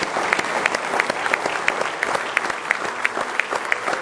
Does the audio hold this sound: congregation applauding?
yes